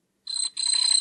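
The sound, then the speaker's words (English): A late-1970s Mattel Coleco handheld electronic football game gives two shrill electronic beeps. The first is short, and after a brief gap the second is longer and slightly warbling. “That sounded like the handheld Mattel Coleco football game Wintone to me. See? Been 40-ish years, and if it's not that, it's a similar late 70s, early 80s handheld.”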